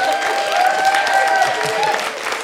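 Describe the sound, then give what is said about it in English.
Applause from an audience at a Halloween-special film quiz show, a steady wash of clapping that holds for about two and a half seconds without pause. “give him a round of applause. Let's hear it for everyone that we had on tonight. Everyone's done a good job.”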